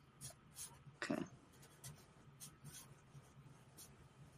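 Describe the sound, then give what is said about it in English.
A pen writes on a notepad in quiet, scratchy bursts of short strokes, with one louder scribble partway through; the sound is soft overall. “All right, I got to get my notepad. So yeah, let me write down my roster.”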